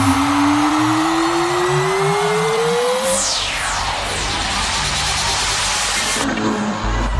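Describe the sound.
Sci-fi time machine effect: a loud whooshing, engine-like roar carries a steadily rising tone that gives way to a falling sweep, and the texture then shifts near the end.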